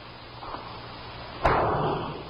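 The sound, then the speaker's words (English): A single sharp gunshot from a Smith & Wesson .38 revolver, fired as a slug into a tree at the edge of the brush, cracks out of low background hiss and leaves a short, fading rumbling tail. “Chase heard a Smith & Wesson 38. Brought it back from Austin. You mind shooting a slug into that tree?”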